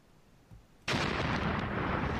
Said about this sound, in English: Can I have a bit of a boom